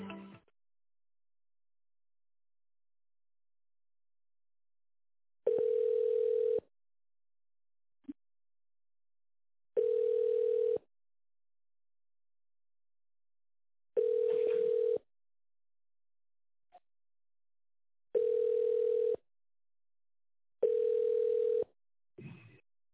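A telephone ringing tone plays while a call is being transferred: five steady, single-pitch tone pulses of about a second each, plus clipped ones at the start and end, separated by long silent gaps.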